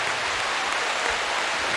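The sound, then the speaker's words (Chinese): Spectators at a table tennis match applaud and cheer after a long rally. Dense, hissing applause holds steady and fairly loud for the whole moment. “大家通过现场的欢呼声就能判断这一份多么精彩啊！”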